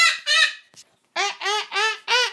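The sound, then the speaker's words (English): A happy pet parrot gives loud, honking calls: two at first, a brief faint one, then four more in an even rhythm after a short pause. “She's a very happy little parrot, isn't she? Oh no, you're going to start...”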